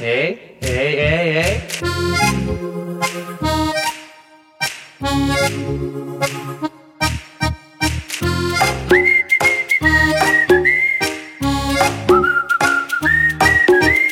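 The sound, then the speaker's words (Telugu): A person whistling a bright melody over instrumental accompaniment, the clear whistled line stepping between held notes in the second half, loud throughout. “హే, ఇంకొకసారి whistle అయ్యవా please please please.”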